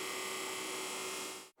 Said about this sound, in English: The firm developed a method to dry the husks. A special machine then crushes them into powder.